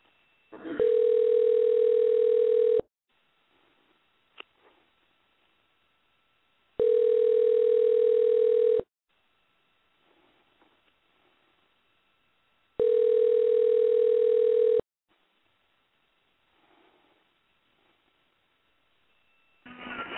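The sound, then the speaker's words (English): Ringback tone on an outgoing telephone call, three long, even buzzing rings separated by stretches of near silence. “We making phone calls today.”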